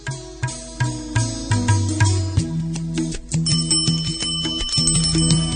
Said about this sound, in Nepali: Ramanath गार्डको quarter निर साइकलको घण्टी बजेको सुनियो।